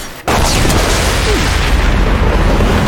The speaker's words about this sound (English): We're gonna use sniper rifle shots versus the giant mech. Oh no, it's gonna explode, I think.